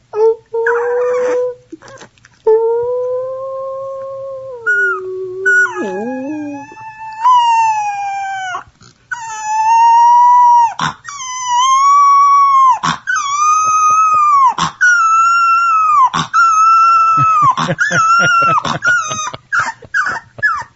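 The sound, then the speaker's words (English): A three-week-old boxer puppy learning to howl gives many thin, high-pitched, wavering howls. Some are long and drawn out, others short and choppy, and their pitch dips and rises. “here's sound of a three-week-old boxer puppy learning to howl.”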